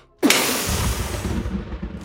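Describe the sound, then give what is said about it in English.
Thunder boom: a sudden loud crack breaks out of silence, then a rough, rolling rumble holds for about two seconds, slowly thinning and fading, with no talk over it. “a boom of thunder”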